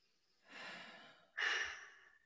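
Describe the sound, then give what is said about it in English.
A deep breath taken slowly: a soft, drawn-out inhale followed by a stronger, louder exhale that trails off, quiet and alone. “I just want to invite everybody to take a deep breath. Like, actually do it.”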